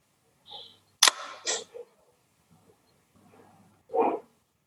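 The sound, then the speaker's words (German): A camera shutter fires with a sharp mechanical snap followed by a short clatter, then a few fainter clicks and a final muffled clack, with quiet between the sounds. “Dann hört ihr eigentlich ein sattes Verschlussgeräusch.”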